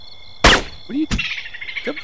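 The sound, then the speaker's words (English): A gunshot: a sharp, loud crack that dies away quickly, then a second abrupt burst and a few brief high chirping tones. “Sir, should I take the shot? Shh. Sir, please, quiet. Shot being taken.”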